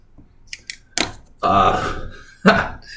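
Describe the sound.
Opening and pouring a sour beer: a few sharp clicks, then a loud hissing rush lasting about a second, with another brief burst near the end.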